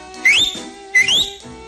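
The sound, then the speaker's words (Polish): Two loud, sharp finger whistles sound alone, each sliding upward in pitch before holding a piercing high tone, separated by a short gap. “Raz Bosman na rufie zgromadził załogę, gwizdnąwszy na palcach dwukrotnie.”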